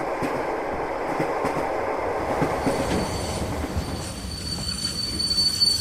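A train carrying prisoners pulls into a station, its wagons giving a steady rumbling rattle over the rails. Thin, high wheel squeals come in over the last seconds.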